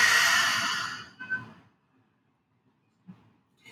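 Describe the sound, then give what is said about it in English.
A deep breath in and out during a guided breathing pause: a long, loud, breathy exhale that fades into near silence, followed later by a faint short breath. “So, breath in and breath out.”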